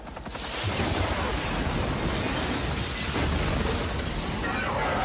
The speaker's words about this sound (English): I like the Independence Day clip, so we're just gonna show it again. It needs to be blown up.